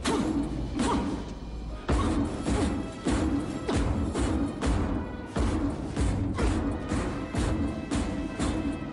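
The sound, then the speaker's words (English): Fists wrapped in cloth pound metal salvage in many fast, heavy punches, each a clanging, crashing thud landing in a rapid, uneven rhythm with no speech. “Todd batters some metal salvage with his fists wrapped in cloths”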